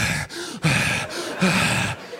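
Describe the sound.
A man's voice imitates a friend's heavy, ragged breathing: several loud, breathy in-and-out gasps in a steady rhythm, each separated by a brief pause.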